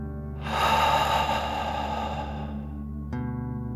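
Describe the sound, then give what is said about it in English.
A long, deep breath drawn and released through the mouth during a relaxation exercise: a single steady rush of air that swells in and holds, then cuts off near the end. “Deep breath in and out.”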